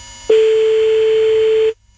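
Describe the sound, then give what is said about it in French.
An unanswered telephone call's ringing tone: one steady, mid-pitched electronic tone that holds for well over a second, then cuts off cleanly into silence. “Allez, j'espère que ça va décrocher, hein. Ouais. C'est mal parti. Tout ça pour le répondeur.”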